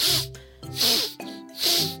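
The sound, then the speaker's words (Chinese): Three forceful, breathy bursts of air are blown out through the nose to clear the nostrils after choking on water. They come in an even rhythm, with faint tonal sounds in the gaps between them. “我先用嘴巴呼吸，哈，哈，哈，然后再用鼻子，鼻子来喷气，清理鼻孔”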